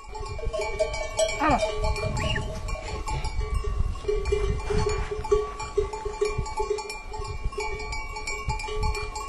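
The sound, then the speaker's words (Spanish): Bells worn by a herd of firefighting goats in the Madrid mountains jangle and tinkle continuously, an irregular clanking of many small bells throughout. “una sonrisa se nos dibuja, recordando el tilín de los encerros de las cabras bomberas de José Antonio”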